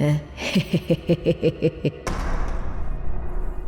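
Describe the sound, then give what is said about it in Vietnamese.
A heavy thud as a woman trips and falls hard onto the floor beside a bed: a sudden broad impact that spreads into a lingering rumble, preceded by a quick run of about eight pulsing, voice-like bursts. “nhưng cô lại vấp rồi ngã đập mạnh xuống dưới đất một cái thật đau”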